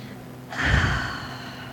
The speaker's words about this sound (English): Together, we all take a very deep breath.